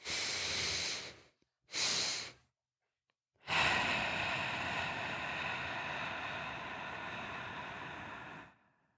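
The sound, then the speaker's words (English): Breathing exercise: two quick nasal inhales, the second shorter, then after a brief pause one long, steady exhale of about five seconds, soft and breathy with no talking. “So when you focus on doing the breath in, and the exhale, you really want to focus on making the exhale longer than any of the two inhales.”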